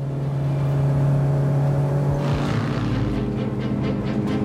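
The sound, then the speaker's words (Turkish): Race cars at the Silverstone racing circuit: a steady engine drone gives way after about two seconds to a louder, rougher roar as the cars come through. “Aman tanrım, aman tanrım, aman tanrım. Silverstone yarış pistindeyim.”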